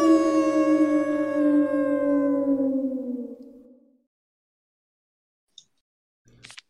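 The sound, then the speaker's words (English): A huge dog on the moors lets out one long, fierce howl, loud and sustained, its pitch sinking slightly as it fades away, followed by silence broken by a couple of faint, brief noises. “a patch of drifting whiteness seems to billow outward, and suddenly a fierce howl fills the air.”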